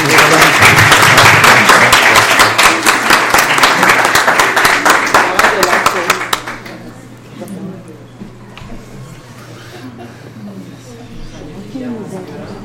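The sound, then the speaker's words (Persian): An audience breaks into loud, sustained applause for roughly six seconds. The clapping then fades and gives way to quiet talk over a low hum. “تشویق بفرمایید”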